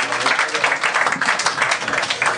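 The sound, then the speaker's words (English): Applause from a live show audience in Hamden, Connecticut: a dense, steady wash of many hands clapping at an even loudness throughout, with no pause. “Give yourselves a big round of applause.”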